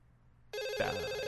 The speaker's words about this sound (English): I am dialing.